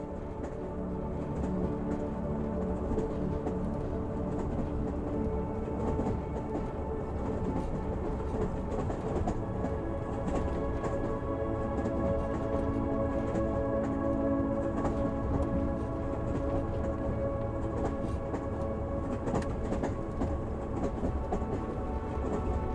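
Steady rumble of a moving train heard from inside the carriage at night, a dense, continuous low roar with faint rhythmic rattling that holds at an even level throughout.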